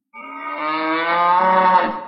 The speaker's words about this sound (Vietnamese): Ngoại giới, một tiếng bò rống khiến Thạch Hạo mở bừng mắt ra.